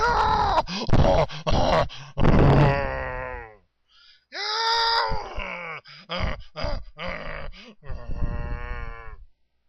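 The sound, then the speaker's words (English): A human voice imitates a monkey grunting, producing a run of harsh, throaty grunts and groaning moans in separate bursts with short pauses between them. “ends with a monkey grunting. Every hair on my body was standing. The sound, I'll try to imitate it, but this is a poor imitation, but I will attempt. The sound is sort of like,”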